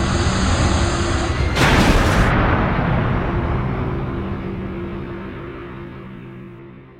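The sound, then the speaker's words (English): A spaceship crash-lands on a junk-strewn moon: a heavy rumble, then a sharp bright burst of impact about a second and a half in, followed by a long low roar that gradually fades away. “At that point, we had no choice but to crash land on the Clod, that garbage dump of a moon.”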